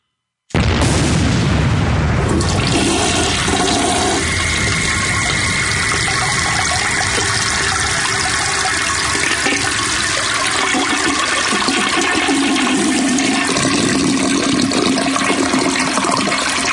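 A toilet flushes with a sudden loud burst of rushing, gurgling water that pours on steadily for about sixteen seconds, with no voices over it.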